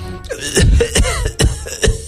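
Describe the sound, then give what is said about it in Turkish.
A voice imitates coughing, acting out someone who is sick and has lost his voice. It gives a few rough, throaty coughing bursts in quick succession, fairly loud and hoarse. “Öksürmüş.”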